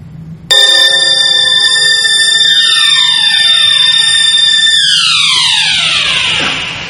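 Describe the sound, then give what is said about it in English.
An alarm clock ringing, a loud, harsh, continuous tone that starts abruptly and holds for about six seconds, its layered pitches sliding downward as it goes on. “Starts with an alarm clock.”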